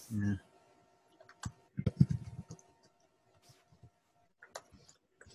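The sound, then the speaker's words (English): Keys clicking on a computer keyboard during hurried typing: a quick cluster of keystrokes in the middle, then scattered single taps, all fairly faint. “I can only type so fast, and apparently, I'm making lots of typos because I'm trying to type really fast.”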